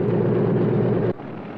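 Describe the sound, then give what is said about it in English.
An airplane's engines as it begins to taxi: a steady, loud, broad roar that drops abruptly to a quieter, thinner rumble after about a second. “Looking back towards the plane as it begins to taxi, Max”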